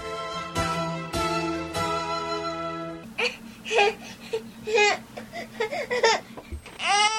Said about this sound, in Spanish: Ay, mi bebé ya se despertó.